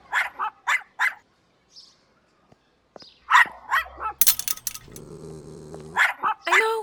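A dog on a leash at a dog park gate barks in several short bursts and growls in a low, sustained rumble, with clattering sounds in between.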